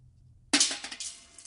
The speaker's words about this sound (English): The sound that you are about to hear is a BB falling into a metal soup pot.